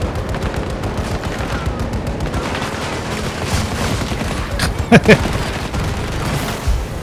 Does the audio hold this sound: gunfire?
yes